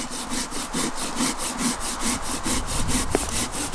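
A hand saw cuts apple-tree branches during pruning in a fruit gene bank orchard. Its many steady, evenly spaced scraping strokes carry a rough, grainy rasp and play alone without voices.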